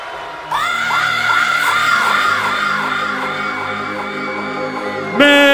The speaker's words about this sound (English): Some noise for DJ Medved!